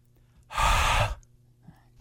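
A person breathes hard into a microphone in a single breathy, noisy exhalation of about half a second, loud against near silence, followed by quiet and the start of another sound right at the end.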